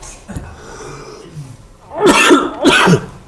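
Someone clears their throat of lodged dust: faint rough sounds first, then two loud, harsh rasping coughs in quick succession near the end.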